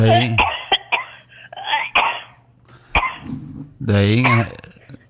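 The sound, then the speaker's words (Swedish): A person coughing amid conversation: a few short, sharp coughs break up voiced, throaty sounds and throat clearing, with people talking around them. “det är en riktig ärlig hosta du har.”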